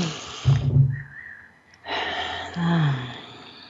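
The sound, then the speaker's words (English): Deep breaths taken together by a group during a calming exercise: a short, breathy burst, a quiet pause, then a longer, steady, airy breath. “Take a couple of deep breaths. In fact, let's do that together right now.”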